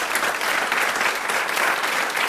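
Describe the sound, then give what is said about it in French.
Studio audience applauding a guest as he is welcomed, a thick, continuous wash of clapping from many people at an even, fairly loud level. “Applaudit très fort.”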